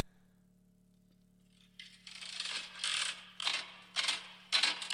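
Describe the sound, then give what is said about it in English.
Slot machine mechanism whirring and clattering in several rattling bursts after a quiet start, with a low steady hum running underneath. “Slot machine.”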